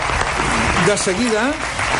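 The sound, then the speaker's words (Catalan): A studio audience in a radio studio applauds a guest, giving steady, dense clapping for two seconds while a voice talks over it midway. “Ramon Solsona, aplaudiment per ell avui aquí al Món a RAC1.”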